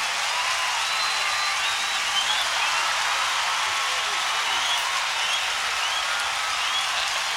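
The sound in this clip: An audience applauds in a dense, sustained wash of clapping that stays loud and even throughout.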